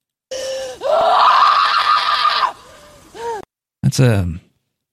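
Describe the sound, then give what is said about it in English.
A woman's short scream from a horror film, loud and sustained for about two seconds, followed by a brief softer cry and then a sharp gasping cry. “This is a short scream by Samara Weaving.”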